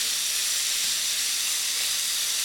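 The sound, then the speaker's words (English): Too much extremely hot oil sizzles and splatters in a pan as thinly cut whitetail venison is given a quick cook, a dense, bright, steady hiss with no pauses. “Because it's starting to splatter a little bit, and that's not cool. But extremely hot, and what I'm trying to do is just give this a quick cook.”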